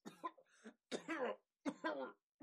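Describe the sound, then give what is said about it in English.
A person has a coughing fit, with three harsh bursts of rasping coughs separated by short pauses. “you're getting into a little coughing fit”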